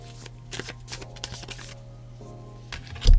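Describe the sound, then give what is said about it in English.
Tarot cards being shuffled in a steady run of crisp, papery riffles and flicks at moderate loudness, ending in one louder, low thump. “Let's pull a few tarot cards and see what the vision for the day is.”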